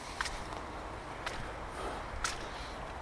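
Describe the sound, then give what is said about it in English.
Footsteps of someone walking through the first rain of the season: a few soft, widely spaced steps over a steady hiss of falling rain, faint overall. “This is the first rain of the season as I walk through the rain here”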